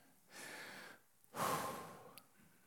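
A deep breath from an audience during a church sermon, heard as one long, soft inhale followed by a louder, longer exhale, both faint with quiet gaps around them.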